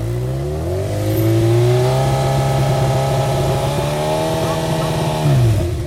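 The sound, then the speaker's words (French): A car engine held at a steady half-rev for an exhaust noise test, measured from behind the tailpipe at 45 degrees. The loud, even drone climbs in pitch early on, holds steady for several seconds, then drops away near the end. “Et quand je vous dirai d'accélérer, en constant, vous restez à moitié régime. Allez, on y va.”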